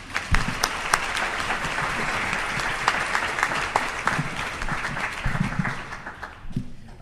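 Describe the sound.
An audience applauds to welcome a speaker at a lecture, with dense, steady clapping that holds for several seconds without voices.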